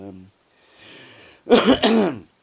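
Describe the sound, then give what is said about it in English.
A cough, heard as two loud, rough bursts close together after a quiet lead-in of faint breathy noise, with no talk over it. “I didn't manage not to cough through the whole 3 minutes or whatever it is”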